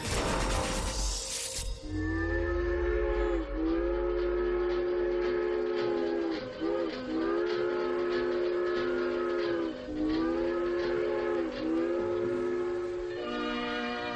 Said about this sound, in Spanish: El tren.